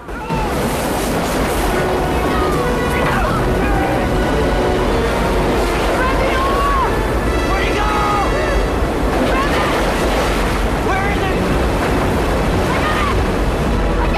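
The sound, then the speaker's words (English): White-water rapids roar loudly as a boat plunges through them, a constant churning rush of water with voices mixed into the turbulent noise. “The boat plunges down into the white water. The prow bucks up into the air.”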